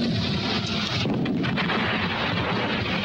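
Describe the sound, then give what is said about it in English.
Artillery shells exploding in a battle under heavy German fire as British tanks advance, a dense, continuous roar of booming blasts with no break. “As the British tanks draw closer, Martin and the Sergeant dodge the exploding shells.”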